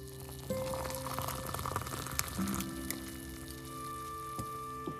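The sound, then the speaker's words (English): A warm pot of water heating for instant Nescafe coffee gives off a faint, steady hiss with light bubbling and a few soft ticks and clinks over a low hum. “the delicious sound of Nescafe and a warm pot of water brewing”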